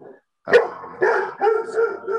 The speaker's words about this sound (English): Sorry, that's my dog barking.